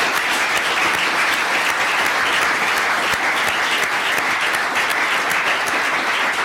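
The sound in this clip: Sustained audience applause thanking the speaker after a talk: a dense, steady wash of many hands clapping, loud and unbroken for the whole stretch.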